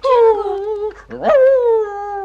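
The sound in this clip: Whimpering of an agitated dog: long tonal whines that slide downward, broken by a brief gap and a sharp rising yelp near the middle, then another falling whine, loud and continuous.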